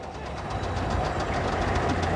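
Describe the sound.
A running single-cylinder engine gives a continuous, even rumble with rapid low knocking pulses, steady in level throughout with no voices.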